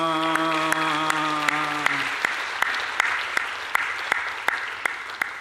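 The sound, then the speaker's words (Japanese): A church audience applauds during a service after a blessing prayer for a newlywed couple. Sharp claps fall in a regular rhythm, and a held tone fades out over the first two seconds. “世界中の礼拝で、大谷がいくら結婚式 しようと教会の礼拝で、祝福を祈りますなんて拍手したのはここだけだと思いますけど”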